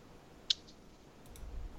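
A computer mouse gives one sharp, quiet click as the download button is pressed. The click stands alone against a low, hushed background.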